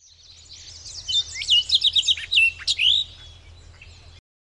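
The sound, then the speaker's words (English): House sparrow calling: a rapid run of many bright, high chirps and short twittering notes, fairly loud and alone over a faint low hum, ending abruptly. “House sparrow.”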